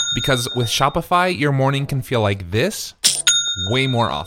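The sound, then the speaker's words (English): Online store sale notification chime, a bright bell-like ding that rings twice, near the start and again about three seconds later, both sounding under a person talking. “That's the sound of a sale being made on your new Shopify store.”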